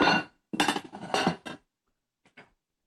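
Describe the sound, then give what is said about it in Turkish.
Clean dishes and containers clatter and clink as they are lifted: a quick run of bright, knocking rattles, then a pause and two small faint taps. No one speaks. “Şimdi bu kaplarım temiz. Ben şöyle bir kaldırayım.”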